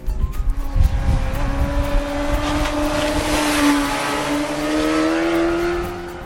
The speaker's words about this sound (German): Ungeschlagen in der Klasse der 600er Naked Bikes ist der Sound der neuen GSR 600. Im Fahrbetrieb hört der Fahrer gieriges Röcheln aus der Airbox